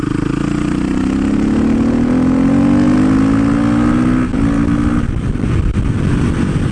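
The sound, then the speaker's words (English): A dirt bike engine of about 258 pounds and roughly 56 horsepower revs loudly. Its pitch climbs steadily for about five seconds, then drops away into a rougher, lower rumble. “Considering that effectively it's a dirt bike,”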